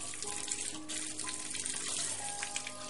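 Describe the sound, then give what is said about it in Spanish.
Water runs steadily from a tap into a sink in a restroom as someone washes their face: a continuous hissing splash, even in loudness, with no talk. “Se lava la cara en un aseo.”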